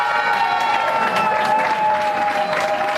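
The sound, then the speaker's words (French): Applause and cheering from fellow participants greeting the winning team at a competition's award ceremony, where a residence in Beaulieu, Vaud, took first place. Dense, steady clapping and crowd cheers hold at an even, fairly loud level for the whole three seconds. “Acclamée par les autres participants, l'équipe victorieuse ne cache pas son émotion.”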